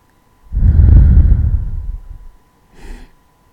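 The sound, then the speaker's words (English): A long, deep breath drawn in, loud and breathy, then a pause and a shorter, softer breath let out. “Just take a deep breath in. And out.”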